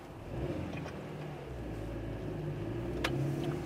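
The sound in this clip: A car's engine and road noise at night on the drive to an airport, a steady low rumble that runs unbroken through the whole stretch, with no one talking.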